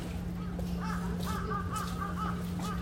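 A crow caws in a quick series of rough, nasal calls, some bunched close together. A steady low hum runs underneath throughout.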